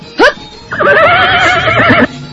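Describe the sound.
A horse neighs during a night ride: a brief high call, then a long wavering whinny of about a second and a half, loud and clear with no voices over it.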